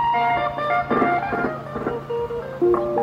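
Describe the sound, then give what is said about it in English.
Amplified loudspeaker sound from a van driving through the streets of Tala, a small town in eastern Kenya, announcing a moonlight HIV testing center. Bright, music-like tones play at a steady, fairly loud level. “A van drives through the streets of Tala, announcing the opening of a moonlight testing center here in this small town. The announcer is encouraging people to get tested for HIV.”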